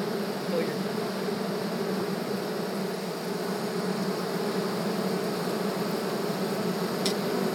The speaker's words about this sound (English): Can you want to put the mic inside that hole, maybe? Stand closer